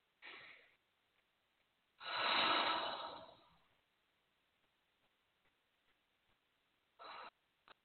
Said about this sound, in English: Take a few deep breaths.